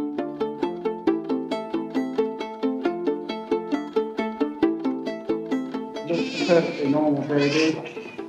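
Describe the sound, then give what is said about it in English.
A newborn baby girl's first cries near the end, a couple of wavering, bleating wails that rise over steady, rhythmic plucked-sounding tones heard throughout. “A good, healthy cry. Plenty of fat underneath the skin. Good, mature baby.”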